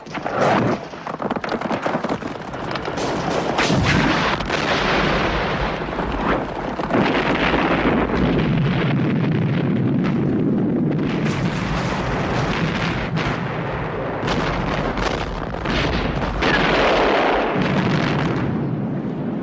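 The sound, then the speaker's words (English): A benzine fuel dump blowing up amid artillery fire in a wartime battle: a dense, sustained roar of rumbling blasts punctuated by many sharp bursts, loud throughout, with no talk. “I'll blow up the benzine.”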